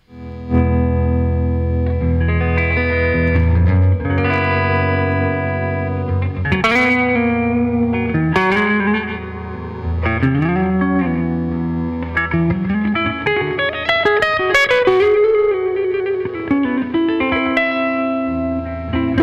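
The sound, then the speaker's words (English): Electric guitar with P90 pickups played through effects, giving a distorted tone with chorus-like shimmer. Sustained notes and chords include some bends and gliding pitches, played alone with no talk. “because it has such a different sound, the humbuckers versus the P90s on here. And it serves some songs better than the SG would, which is why I've been using it.”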